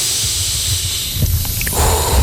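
Breathing in and out during a guided breathing exercise, heard as a loud, airy hiss that swells again toward the end.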